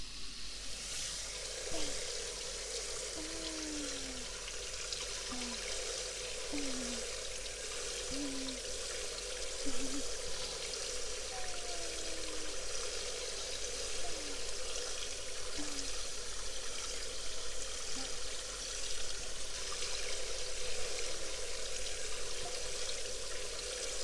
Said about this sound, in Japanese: それじゃあ洗い流すね。